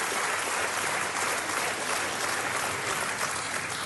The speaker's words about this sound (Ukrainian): Вам ніколи не аплодувала стоячи київська опера? Ще ні. От перший раз.